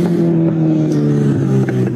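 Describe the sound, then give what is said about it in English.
A motorbike speeds down a main road with a loud, steady engine drone that holds a nearly constant low pitch and shifts slightly near the end. “Speeding down a main road in plain sight of police.”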